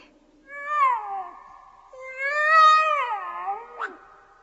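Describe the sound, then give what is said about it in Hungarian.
A tomcat meowing: two long, drawn-out wavering meows, the second longer and louder, followed by a brief sharp call, with no talk over it. “Kedves kandúr, merre van a gazdád?”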